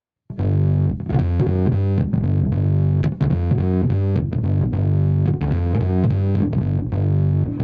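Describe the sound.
A Speebtone Jerk-U-Later fuzz pedal drives an electric guitar with its capacitor switch on the bass-boost 1µF option, giving loud, thick, heavily distorted chords in a steady rhythmic riff with a full low end and no talking.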